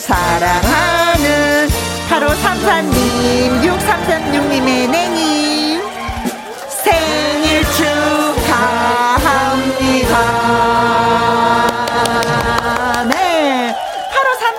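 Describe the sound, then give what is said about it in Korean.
A Happy Birthday song plays as a birthday greeting on a Korean radio show. The music is loud, full and continuous, with brief dips partway through. “축하 노래 띄워드릴게요. 생일 축하합니다.”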